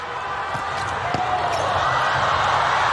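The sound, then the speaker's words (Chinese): A volleyball serve is struck during a match involving Brazil: a brief, sharp hit on the ball cuts through loud, steady arena crowd noise, and a few fainter impacts are scattered around it. “现在看看巴尔加斯的发球”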